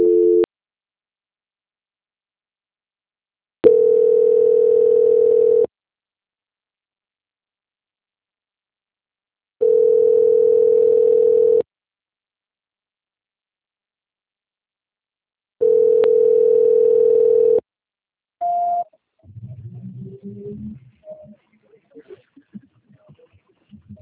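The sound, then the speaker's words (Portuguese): A telephone line plays a steady tone while a call is being transferred. The tone comes in repeated bursts about two seconds long with silent gaps between them, then a brief final beep, followed by faint garbled sounds. “Só mais um minuto, por favor, estou transferindo a ligação do senhor. Ok. Transferência.”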